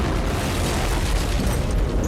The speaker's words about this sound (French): Le puits d'aération est rempli de blocs de C4. L'explosion qui s'ensuit est dévastatrice.